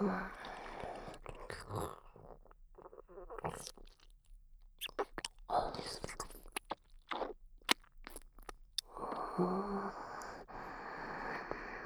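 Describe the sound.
Someone chewing sticky food while eating, with many soft, moist crunches and squishy bites in an irregular rhythm, separated by brief quiet gaps.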